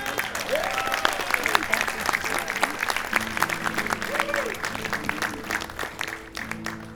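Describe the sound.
An audience applauds to welcome a performer. The clapping is dense and steady for the whole stretch and eases slightly toward the end.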